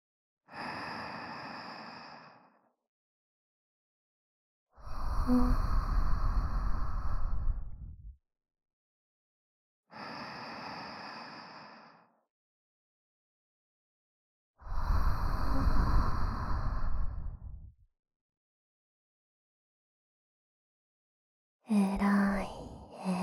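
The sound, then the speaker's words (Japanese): Slow, deep breathing repeats a few times as a person relaxes. Softer, airy inhales alternate with louder, longer and fuller exhales, separated by long quiet pauses. “深呼吸できて、えらい、えらい。”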